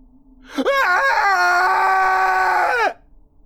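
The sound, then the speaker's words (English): A blood-curdling scream rises sharply into one loud, sustained, shrill shriek lasting over two seconds, wavering at the start, then cutting off abruptly. “Ryan's words were cut short by a blood-curdling scream.”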